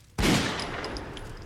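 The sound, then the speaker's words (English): An 88mm round is fired in one loud blast with a sharp onset, then a long, rumbling decay that fades slowly without dying out. “I fire one 88mm round through his cranium.”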